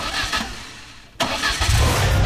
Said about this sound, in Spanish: Hay un motor que está por encenderse. Y cuando acelere, nada volverá a sonar igual.